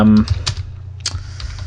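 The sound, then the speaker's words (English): Computer keyboard typing during an online search: a quick run of light plastic key clicks at an irregular pace, with a steady low hum beneath. “I'm trying to do a quick Google. I can't find it.”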